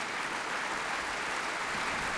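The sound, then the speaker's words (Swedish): An audience applauds the orchestra at a symphony concert with dense, steady clapping. The applause stays even and continuous throughout, with no talk. “Ja, det är applåder för alla.”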